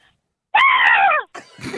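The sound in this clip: A person imitates a high-pitched scream like a screaming child with one shrill, sustained cry lasting under a second that falls in pitch at its end. Brief rougher vocal sounds follow.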